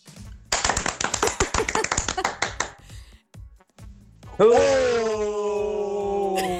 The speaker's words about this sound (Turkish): Mesela alkış butonum şu an yok. Müthiş bir alkış butonu yollamış dinleyicim. Hemen dinliyoruz.